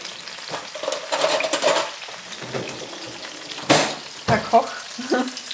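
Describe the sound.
Food frying in a pan gives a steady, hissing sizzle throughout, broken by a few sharp utensil clatters as the food is stirred or turned; brief voices are heard.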